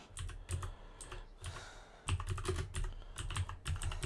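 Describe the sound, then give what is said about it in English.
Fingers type on a computer keyboard, producing many faint, crisp key clicks in irregular bursts, with a brief pause midway before a busier run of keystrokes. “I just typed in Indian tanks for firefighting and just scrolled down.”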